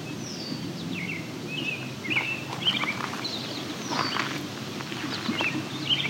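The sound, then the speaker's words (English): Goldfinches call near flowing water: thin, high chirps and twittering calls come in scattered bursts over a steady, broad rush of water. “Now there's goldfinches here too.”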